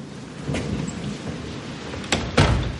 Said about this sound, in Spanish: La señora Michelle abre la puerta de la portería.